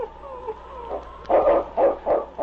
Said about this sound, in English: Finally, he paused and gave a sharp bark.